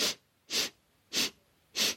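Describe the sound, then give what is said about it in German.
Four short, sharp sniffs drawn in through the nose as a breathing exercise, evenly spaced and equally loud, with no talk. “Einmal zusammen. Einatmen. Viermal.”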